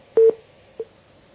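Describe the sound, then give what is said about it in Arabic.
Telephone tones on a call-in line that has just disconnected: two quick beeps close together, then a single fainter beep after a pause, all at one steady mid pitch. “طيب الخط انقطع مع حضرتك، حاول اتصل بنا مرة أخرى.”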